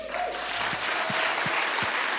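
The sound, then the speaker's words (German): A standing audience applauds three guests being welcomed onto a stage: dense, steady clapping that fills the whole stretch at full strength, with a few low thuds underneath. “Und ich möchte euch alle mal bitten aufzustehen, weil wir wollen drei Persönlichkeiten mit einem riesigen Applaus willkommen heißen.”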